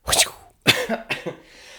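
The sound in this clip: A person coughing alone, a short series of harsh, raspy coughs: a longer first burst, a brief pause, then several quicker, fainter coughs.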